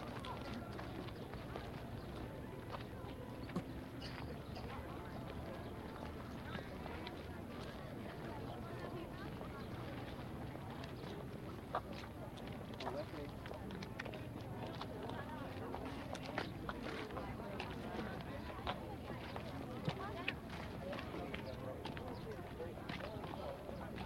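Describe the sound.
Footsteps of a group walking on to the next spot patter faintly and steadily throughout, blended with murmuring voices and soft rustle.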